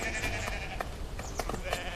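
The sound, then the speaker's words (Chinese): Sheep bleat as a flock is driven home, with a few moderately faint bleats overlapping in steady succession. “走，我们赶羊回家去。”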